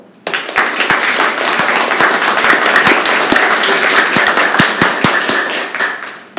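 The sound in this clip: Studio audience applause from an eighth-grade class during a classroom radio show: brisk, loud clapping that starts abruptly, with many sharp individual claps standing out from the mass before it tapers at the end.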